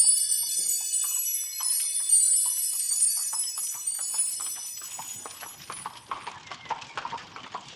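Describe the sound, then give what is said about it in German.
Hooves clip-clop as a horse-drawn carriage arrives in the moat of a castle, many rapid, even hoofbeats that grow more distinct in the second half, with a high ringing tone over the opening seconds. “Die Kutsche mit seinen Krokodilen kommt!”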